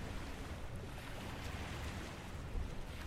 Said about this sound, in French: Au loin, mon père plonge dans l'océan. Et à côté de moi, ma mère s'endort, bercée par le flot des vagues.